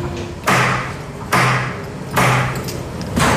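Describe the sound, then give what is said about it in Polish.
Heavy knocking on a door in a chalk cellar tunnel: four booming, evenly spaced thuds, each ringing briefly before the next, with no talk. “O, porządnie, aż drzwi się otworzyły, więc myślę, że duch usłyszał.”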